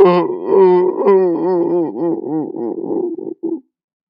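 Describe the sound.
A voice acts out a child's wailing cry, with a drawn-out, moaning sob that breaks into pulsing, shuddering gasps. The cry gradually weakens before cutting off abruptly.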